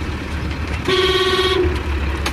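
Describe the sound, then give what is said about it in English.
Busy market street traffic with auto rickshaws, cycle rickshaws and people on foot. A steady rumble of engines runs throughout, with one long, bright vehicle horn blast near the middle. “Okay, so traffic is getting thicker here as we're turning. Again, we're competing with multiple people on foot, auto rickshaw, cycle rickshaw, and auto rickshaw.”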